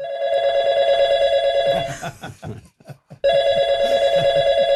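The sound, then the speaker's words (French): Telephone ringing as a call is placed, two long, loud electronic rings separated by a pause, with no talk. “Puisque nous consultons des anciens premiers ministres, nous nous sommes permis de téléphoner à Jacques Chirac.”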